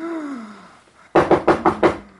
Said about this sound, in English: Kafka sleeps, banging on a door.